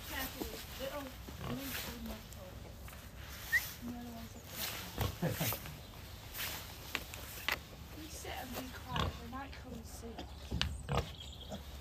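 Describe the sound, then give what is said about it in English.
An Oxford Sandy and Black pig grunts and snuffles in short bursts, mixed with people talking over it throughout. “What kind of a pig is she? She's a Oxford Sandy and black.”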